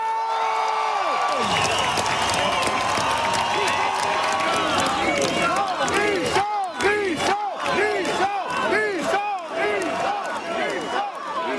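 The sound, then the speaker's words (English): Fans cheer, whoop and applaud as a performer takes the stage on a Saturday night at the closing show of the Osisko en Lumière Music Festival in Rouyn-Noranda. A loud, dense crowd roar with high shouts gives way to rhythmic bursts of clapping. “Those are fans welcoming Richard Desjardins onto the stage on Saturday night in Rouyn-Noranda.”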